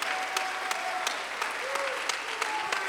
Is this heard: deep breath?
no